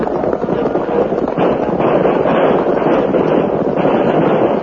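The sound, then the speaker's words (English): Rifle gunfire in a battle as mounted troopers charge: a dense, continuous crackling roar with no separate shots standing out, loud and steady throughout. “The troopers opened fire as they charged into the battle.”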